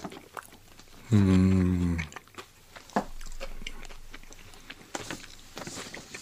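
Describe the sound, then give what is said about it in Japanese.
Biting and chewing bread, with crunchy bites and moist chewing heard as many soft, irregular clicks. A brief hummed vocal sound comes early on. “ちょっと食べるまで待ってくださいね。”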